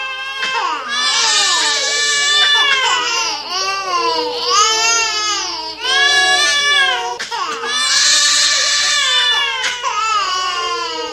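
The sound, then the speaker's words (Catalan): Many children crying at once as a story sound effect, a loud, continuous wash of high, wavering wails and sobs that overlap for the whole stretch with barely a pause. “De tant plorar va mullar el paper que tenia per escriure i de sobte tots els nens del món es van posar a plorar.”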